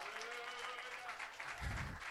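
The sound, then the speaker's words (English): A church audience claps its hands in a faint, steady patter that continues without a break, with a brief low thump near the end. “Clap your hands one more time.”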